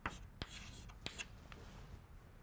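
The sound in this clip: Writing on a board during a math lecture: a few sharp taps and short scratchy strokes spaced out over a faint, steady background.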